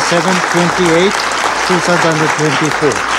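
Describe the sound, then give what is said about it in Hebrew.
Applause breaks out in the UN Security Council chamber after a resolution is adopted by vote: steady, moderately loud clapping from the members and audience, with a man's voice speaking over it. “מחיאות הכפיים האלו, מחיאות כפיים של צביעות זועקת לשמיים, הן מה שנשמע אתמול במועצת הביטחון של האום”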